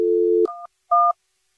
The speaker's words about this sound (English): So this is the Jubal Show calling you back to ask you 1, 2, 3.